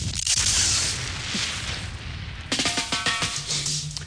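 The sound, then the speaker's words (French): A missile rushing past during a comedy sketch at Roland-Garros, with smoke about: a loud, dense roaring hiss that holds for a couple of seconds, then breaks into a run of sharp crackling bursts. “Ah, c'est dingue, il y a un missile, je crois, qui est passé, là.”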